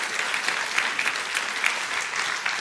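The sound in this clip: A church audience claps to welcome two speakers onto the stage at a morning service: steady, dense applause that holds at an even level throughout, without talk.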